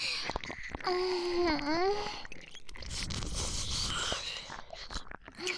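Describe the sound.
Food being bitten into and chewed, with crunchy, wet bites and mouth sounds throughout. A brief voiced sound wavers in pitch early on. No clear speech.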